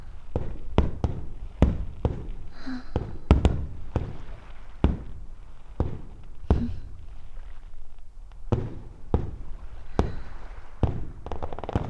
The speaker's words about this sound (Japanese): 花火見ないともったいないじゃないでしょ。